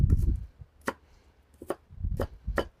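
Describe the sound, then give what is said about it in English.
A knife chopping fresh onion: a few sharp, crisp chopping strikes come at an uneven pace, with duller low thuds in between, fairly faint overall. “I might just get a little slice of onion here. Not a giant onion guy, but fresh onion's okay.”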